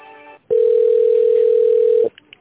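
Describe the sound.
A telephone tone plays while a call is transferred to another department. It is a single steady, even tone held for about one and a half seconds, cut off abruptly at both ends.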